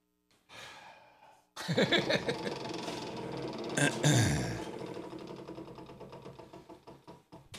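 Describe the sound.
A prize wheel is spun: a sharp start gives way to a long run of many rapid, evenly spaced clicking ticks that carry on to the end.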